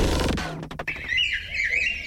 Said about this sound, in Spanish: El pico gordo amarillo, Feuticus crisopeplus.